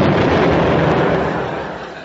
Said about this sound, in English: We got a surprise for you. Tawdry exploded.